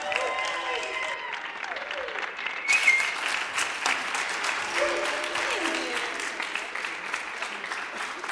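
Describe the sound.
Sustained, steady applause from a church audience at Amarillo Fellowship, welcoming a guest preacher to bring the morning message, with dense clapping running evenly throughout.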